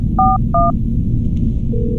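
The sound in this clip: Telephone keypad dialing: two short, clear dual-tone beeps in quick succession over a steady low background hum, with a faint tone near the end.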